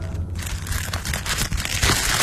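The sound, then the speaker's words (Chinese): Paper parcel being torn open, with dense crinkling and ripping noise running steadily throughout at a fairly even, moderate loudness and no voices. “迫不及待地撕开包裹”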